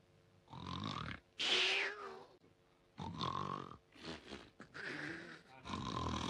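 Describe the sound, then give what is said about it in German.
Exaggerated, theatrical snoring performed by a voice imitating a sleeper: a series of loud, drawn-out, grunting snores with a throaty, nasal rumble, separated by short pauses. “da schnarchte der Pumuckl gewaltig. Ein bisschen zu gewaltig.”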